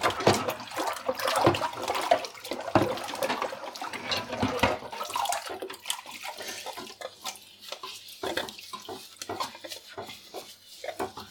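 Washing up a ladle and a large pot lid in sink dishwater, with irregular splashing and sloshing plus occasional clinks, busier and louder in the first half, then sparser splashes.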